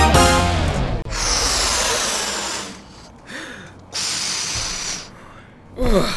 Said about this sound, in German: Wie viele von diesen Luftballons muss ich denn noch aufpusten?